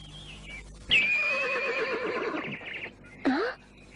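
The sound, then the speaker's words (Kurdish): A horse neighs loudly, a long quavering whinny lasting about two seconds. After a short pause comes a brief second call that dips and rises, with no voices. “ئەو ئەسپی خۆمانە ئازارتان نادا”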